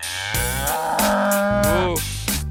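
A cow moos in one long, loud, drawn-out call that holds steady for most of its length, with no other sounds alongside.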